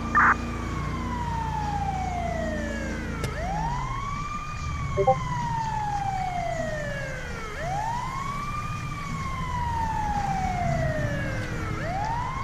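A fire engine siren from a video game, the truck driving code 3, wails continuously and loudly, its pitch sweeping slowly down and back up in repeated long cycles.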